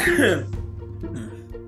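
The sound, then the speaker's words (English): A person coughs a few short times, the bursts mixed with voiced throat sounds and vocal noise. “Now you're coughing.”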